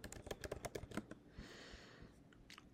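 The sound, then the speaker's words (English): Rapid keystrokes on a computer keyboard typing a search into Google, a quick run of many clicks followed by a soft hiss and a few scattered taps. “if you type into the Google ADHD high serotonin”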